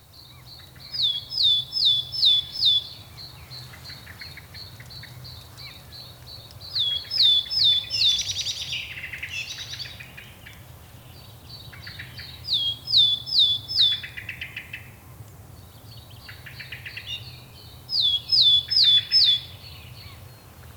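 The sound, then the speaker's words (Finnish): A goldcrest, Europe's smallest bird, sings four separate bursts of very high, thin, rapidly repeated notes, each ending in a quick flourish, spaced by pauses over a faint low background hum. “Näin pontevasti ja voimakkaasti laulaa Euroopan pienin lintu, hippiäinen.”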